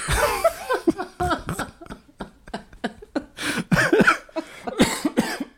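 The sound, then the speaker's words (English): A person coughing: many short, harsh bursts in an uneven series, some close together and some with brief pauses between them, fairly loud throughout. “This is why you coughing.”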